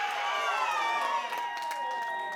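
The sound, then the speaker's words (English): Audience cheering: a fairly faint blend of sustained voices and whoops that shift in pitch, continuous throughout. “Again, if you're feeling out of the loop, ask the people who were cheering.”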